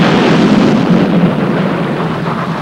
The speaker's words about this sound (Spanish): Ya gira y ve su barco en llamas. El barco ha explotado.